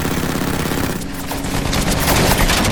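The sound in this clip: Machine-gun fire from a fighter plane shooting at a diving Zero in a dogfight: a dense, rapid, continuous rattle with a short lull near the middle, then growing louder.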